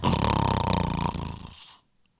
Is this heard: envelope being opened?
no